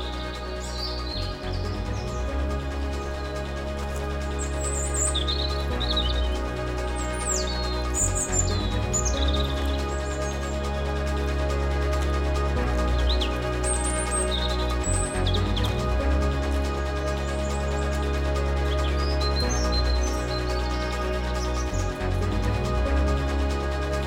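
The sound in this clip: Birds chirping outdoors, with many quick high chirps and tweets scattered throughout over a steady low hum.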